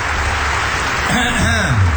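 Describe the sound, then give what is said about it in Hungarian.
Audience applause at a live stage show: loud, steady clapping with a voice calling out over it in the second half. “Na, ennél finomabb tapsotok. Rendes tapsot kérünk szépen, ez az lelkes tömege, így a jó!”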